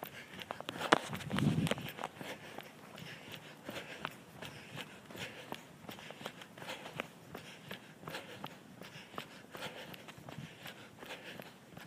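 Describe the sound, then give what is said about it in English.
Footsteps of a runner on a walk break, a steady rhythm of many soft, evenly spaced steps, with a slightly louder scuffing patch near the start. “I'm in betwixt a run segment. In other words, I was on a walk break.”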